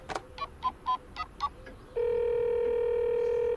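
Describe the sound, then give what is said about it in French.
Telephone keypad tones sound as six short, evenly spaced beeps of varying pitch while a number is dialed. A loud, steady single-pitched tone follows and holds until the end. “Pour en savoir plus, je vais téléphoner à Laurent Kell.”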